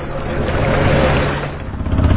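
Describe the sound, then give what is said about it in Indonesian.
Outboard engine of a small wooden passenger boat drones in a steady, loud, rough rumble, with slight swells in level throughout. “Untuk mempercepat perjalanan, kami pun menyewa sebuah pompong, kapal kecil dari kayu dengan mesin tempel.”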